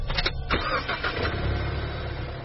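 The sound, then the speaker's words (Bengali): A car engine starts, beginning with a burst of uneven cranking and then catching into a loud, steady rumble, with no voices. “শটান গাড়িতে ঢুকে start দিয়ে বেরিয়ে গেলাম।”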